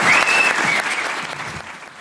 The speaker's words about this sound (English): Now, clap! Yay!